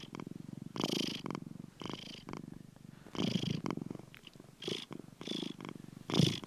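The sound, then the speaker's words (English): A small house cat purrs softly in a rhythmic rumble. Many swelling cycles follow the animal's breathing in and out, each rising and falling in loudness. “I also share the house with a small feline resident known as Gilbert, who you are hearing right now.”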